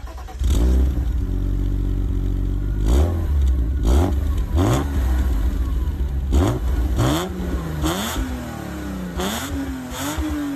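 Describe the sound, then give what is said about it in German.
A homologation-model car, rated 0 to 100 km/h in 5.9 seconds, fires up and pulls away. Its engine roars loudly, rising in pitch again and again through several gear changes. “Wir steigen ein und starten. Fahren.”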